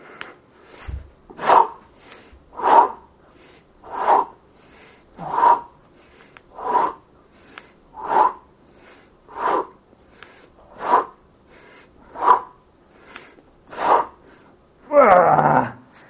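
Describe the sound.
Heavy breathing and groaning during push-ups: ten evenly spaced forced exhales and grunts, about one every second and a half, then a longer, louder gasping groan at the end.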